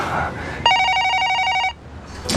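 A telephone rings in a single bright, rapidly trilling electronic burst of about a second, loud over a quiet background hiss.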